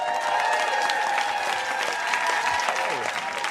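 Audience applause welcoming a guest: dense, steady clapping that stays at an even, loud level throughout.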